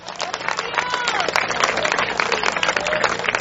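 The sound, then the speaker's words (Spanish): Applause from an evangelical church audience during a sermon: dense, steady clapping that fills the whole clip at an even, fairly loud level. “Dele aplauso al Eterno.”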